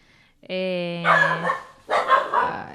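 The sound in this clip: A dog barks in recorded audio taken from the internet, beginning with a drawn-out, tonal whine that breaks into a rough bark, then a second short, loud bark after a brief gap.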